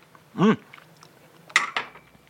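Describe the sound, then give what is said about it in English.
A china tea cup of hot tea is handled, and a couple of sharp, bright clinks sound close together near the end, standing out clearly against near silence. “china cup again or whatever your utensil you've got and take another slip.”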